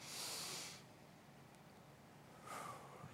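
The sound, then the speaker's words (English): Slow deep breaths taken together to release stress and anxiety: two long, airy rushes of breath separated by a quiet pause, the first lasting most of a second and the second a little shorter. “Can we take three deep breaths together to really blow out any anxiety and any stress that we might have, even by me introducing this subject? Let's do this on three. Number one, one, two, three. Second deep breath.”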